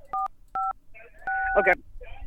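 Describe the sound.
Telephone dialing tones as a call is patched through to another person: three clear dual-tone beeps, the last held longer, with brief voice sounds around them.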